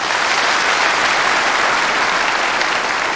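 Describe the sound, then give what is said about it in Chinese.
Audience applause at a performance fills the whole clip as a dense, steady, loud clatter of many hands clapping, with no break or talk over it. “非常感谢大家的掌声。”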